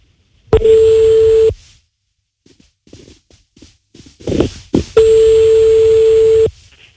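Two steady, mid-pitched ringback tones sound on the line during an outgoing prank phone call. Each lasts a second or more, and a few seconds of faint rustling and handling noise separate them.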